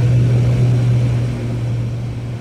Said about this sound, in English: runway 09, clear for takeoff, Golf Kilo Oscar. And we have liftoff.